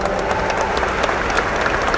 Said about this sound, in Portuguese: salva de palmas para ela.